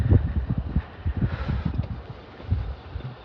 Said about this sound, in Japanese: ちょっと風がね微風が吹いてまして